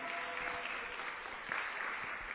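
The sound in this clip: Applause at a forum on youth political participation as a speaker is introduced: a faint, even patter of many hands clapping that stays steady throughout.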